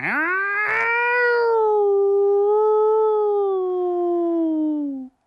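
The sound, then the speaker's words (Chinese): A single long, mournful wolf howl, loud and alone, rising briefly at the start, then holding and gliding slowly downward in pitch for about five seconds before cutting off. “一声凄凉的狼叫”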